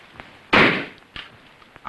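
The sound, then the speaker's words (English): A toy rifle shot hits balloons on a Christmas tree in a living room. It is a single sharp pop that decays quickly, followed by a few faint, soft knocks. “Nick aims a toy rifle at balloons on the Christmas tree.”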